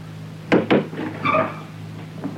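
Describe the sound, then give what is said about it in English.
Knocking on a front door by a newly arrived visitor: two quick, firm raps close together, followed by softer rustling. “She is just knocking at the door.”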